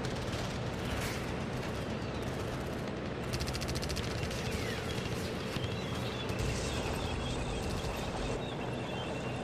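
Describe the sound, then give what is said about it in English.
Battlefield guns firing in a dense, continuous roar of rumbling blasts and crackling bursts that blend into one steady wall of noise, with no voices. “That mark our place, and in the sky, the larks, still bravely singing, fly. Scarce heard amid the guns below.”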